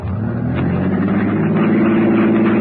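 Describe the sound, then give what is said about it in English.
A car engine, stuck in mud, runs with a steady low hum and mild revving throughout, loud and unbroken with no talk over it. “Start your motor.”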